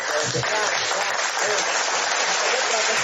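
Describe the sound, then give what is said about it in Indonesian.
Applause from a group, a loud and continuous wash of clapping with some talk underneath. “Kita aplaus dulu.”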